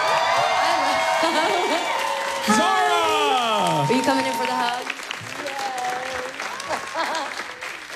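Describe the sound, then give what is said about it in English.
An audience cheers and applauds as a singer is welcomed onto a stage, with loud, sustained clapping and whoops running throughout. A host talks over the crowd noise. “Let's give it up for my girl. Please, make some noise.”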